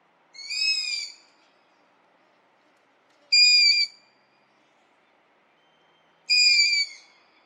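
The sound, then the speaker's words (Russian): Long-eared owl fledgling giving begging calls: three high, harmonic, slightly wavering screeches with pauses between them, fairly loud against a quiet background. “Вот так кричит слеток ушастой совы.”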